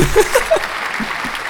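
A short burst of applause, a quick round of clapping mixed with a few brief vocal sounds, fading out within moments.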